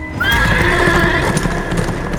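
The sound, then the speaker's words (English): Horse hooves galloping as a rider heads out of a city, a steady clatter of hoofbeats joined by a drawn-out whinny near the start, loud and without voices. “An hour later, he was galloping north from the city”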